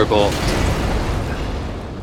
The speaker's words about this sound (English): And he's got a fire shot.